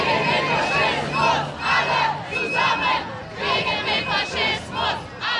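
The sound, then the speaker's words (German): Crowd of a large protest demonstration beside the hall of an AfD party congress, chanting and shouting together in loud, rhythmic bursts that rise and fall in regular pulses. “Neben der Parteitagshalle eine große Protestdemo.”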